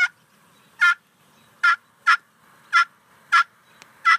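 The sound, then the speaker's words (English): A male wild turkey calling: seven short, raspy, evenly spaced notes with near silence between them, loud and alone. “So the gobblers will actually make that sound.”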